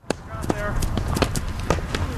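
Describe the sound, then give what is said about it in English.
Hurling players in helmets, carrying wooden hurleys, running a drill: quick, irregular thuds of feet and impacts follow one another, with voices calling over the pounding. “That's the sound of players running a drill, practicing the traditional Irish sport of hurling.”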